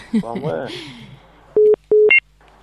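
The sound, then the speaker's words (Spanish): Telephone tones signal an incoming call on a phone line. After a voice speaks briefly, two steady, loud mid-pitched tone bursts sound, followed by a short, higher beep. “Pues Vicente, hay una llamada entrante.”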